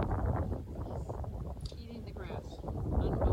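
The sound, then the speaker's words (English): Strong wind buffets the microphone on an outdoor video recording in Port Charlotte, Florida, making a steady, low, rumbling roar throughout, with muffled voices faintly beneath it. “Now, it is the audio is going to be funky because there's still a lot of wind going on.”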